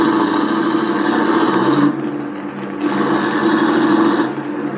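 A car engine runs with a steady mid-pitched hum as the car drives off, easing briefly in the middle before building again.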